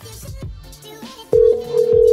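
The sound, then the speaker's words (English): Incoming telephone call tone: a loud, steady, pitched tone cuts in partway through and holds to the end, after a quieter stretch of faint sounds. “So one of these trolls now is calling my phone number.”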